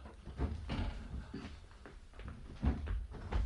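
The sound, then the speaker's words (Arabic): A window being opened in an Arabic radio drama: dull wooden thumps and rasping scrapes at uneven spacing, fairly quiet and with no voices. “استنى لما افتح الشباك واشوف مين اللي هناك.”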